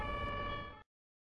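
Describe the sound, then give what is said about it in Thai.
An ambulance siren sounds as one sustained, steady tone with a rich, bright harmonic quality, held for under a second before cutting off abruptly into silence. “รถพยาบาล”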